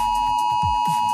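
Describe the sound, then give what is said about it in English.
A phone, tablet and smartwatch emergency warning alarm, the test tone of a new emergency alert system in Australia, sounds as one loud, steady, piercing electronic tone held without a break for the whole stretch. “And every phone, tablet and smartwatch in Australia will blast an alarm at 2 p.m. today. It sounds like this.”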